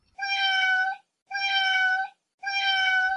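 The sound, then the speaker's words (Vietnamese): A kitten meows inside a cardboard box: three drawn-out, bright meows of about the same length and pitch, evenly spaced with short silences between them and nothing else heard. “Mèo con kêu trong thùng giấy.”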